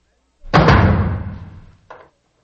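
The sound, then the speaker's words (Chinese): A guard shuts a door in a council chamber with a heavy slam, a sharp, loud impact trailing into a long booming decay. A fainter second knock follows as it settles. “关上门，把门都关上。”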